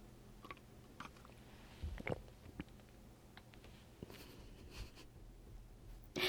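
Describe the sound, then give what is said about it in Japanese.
Drinking a beverage, sipped and swallowed between dry bites: a few soft, close, quiet mouth sounds, separate small wet clicks and gulps over a hushed background. “飲み物を飲む音”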